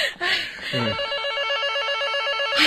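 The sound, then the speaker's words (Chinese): A telephone rings with a steady, bright electronic tone of repeating warbling pulses that continue through the whole clip. “是小军来的电话吧？ 那你快去接。”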